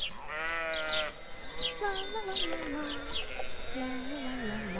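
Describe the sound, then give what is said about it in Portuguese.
A flock of sheep grazing in a meadow bleats in several overlapping, wavering calls, while small birds chirp faintly above them. “Um dia, durante um dos seus passeios, a princesa passou por um prado onde pastava um rebanho.”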